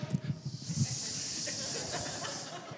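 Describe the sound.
A burger sizzling on a grill as a spatula squeezes it flat: a few soft knocks, then a loud, steady hiss of juice and fat that holds for about two seconds.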